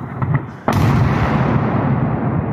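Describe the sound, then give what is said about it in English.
A Russian missile strike exploding at night in Ukraine: a few faint pops, then a sudden, loud blast that turns into a sustained, heavy roar. “We hear someone breathing heavily, trying to stay calm, taking cover as missiles streak overhead. Then they hit. Then another strike lights up the night sky.”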